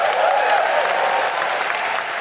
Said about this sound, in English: you're only applauding yourselves. It's your money, gang. You're applauding yourselves.